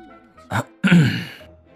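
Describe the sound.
A throat-clearing cough, soft and short: a brief breathy burst, then a longer, rough, voiced rasp that trails off. No speech.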